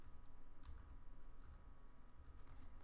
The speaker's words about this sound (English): I'll just type that in.